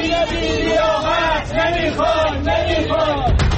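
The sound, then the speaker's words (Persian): Esteghlal football fans chant protest slogans against club managers outside the club building, a loud crowd repeating rhythmic shouted phrases in steady waves. “هواداران استقلال به سیاست‌های نقل و انتقالاتی از دست دادن ستاره‌ها و عدم جذب بازیکنان بزرگ اعتراض دارند و علیه مدیران این باشگاه شعار دادند.”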